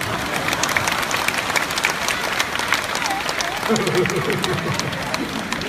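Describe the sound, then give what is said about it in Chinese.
Applause from a small group, with steady clapping running throughout, mixes with people talking over it. “鼓掌”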